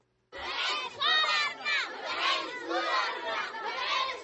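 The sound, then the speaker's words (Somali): Poor children shout in protest at their school in Waaberi district, Mogadishu. A loud, dense crowd of young voices bursts in after a moment of silence and keeps going in overlapping surging waves. “Waa codka caruurta danyarta wax ka baratay iskuulka 20 December ee degmada Waaberi ee Muqdisho. Waxay ka cabanayaan war la xiriira in laga saari doono iskuulka wax ka dhigtaan.”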